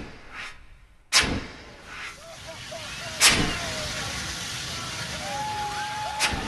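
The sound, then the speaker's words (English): A long propane flamethrower, wielded by an artist in a silver fire suit, roars into tall fire vortexes: sudden loud whooshing bursts, three strong ones, each trailing into a sustained rushing roar. “Nate Smith is moving back and forth like a spaceman in a silver fire suit, wielding a long propane flamethrower. He's controlling 50-foot-tall vortexes of flames that shoot into towering funnel shapes.”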